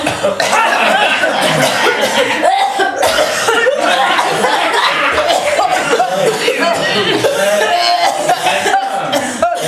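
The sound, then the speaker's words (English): Audience members cough on request at a live event: many rough coughs and throat-clearing sounds overlap with chuckles and laughter from the crowd, loud and continuous. “Can somebody cough, please?”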